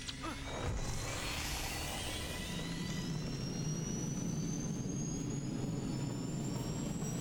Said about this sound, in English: Proceeding with takeoff. Engaging rockets. Full thrust.